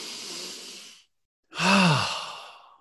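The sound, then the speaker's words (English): Deep breathing: a soft, airy inhale lasting about a second, a short silence, then a longer exhale that turns into a voiced sigh with a low tone and fades out. “Breathe.”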